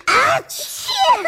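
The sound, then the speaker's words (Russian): Children sneeze together, set off by the strong scent of mint, oregano, chamomile and other fragrant herbs, giving two loud, voiced sneeze bursts in quick succession, the second longer and more drawn out. “Здесь так сильно пахло мятой, душицей, ромашкой и другими ароматными травами, что ребята дружно чихнули.”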